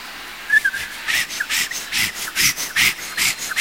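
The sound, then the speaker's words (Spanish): An imitation of a saw cutting an iron pipe gives many rhythmic, rasping back-and-forth strokes with a whistling edge, loud and evenly paced with no speech. “Imitación de una sierra cortando una tubería de hierro.”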